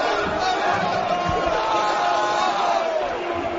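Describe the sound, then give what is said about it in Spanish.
Real Madrid basketball players chant in a huddle after beating Barcelona in the Liga Endesa final: a group of voices shout together in loud, steady unison over crowd noise. “Real Madrid campeón. Así suena el corrillo del Madrid”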